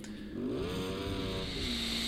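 Motorcycle engine in a racing video game, a continuous buzzing whine that climbs in pitch, holds steady, then dips slightly near the end.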